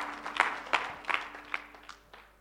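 Hand clapping from a church audience: several sharp, distinct claps fall in a loose rhythm and gradually grow fainter toward the end.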